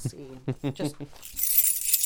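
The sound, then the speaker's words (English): A bunch of keys jingling: a brief run of voiced sounds gives way to a bright, shimmering burst of metallic chinks and rattles that carries on to the end. “Jingling my keys.”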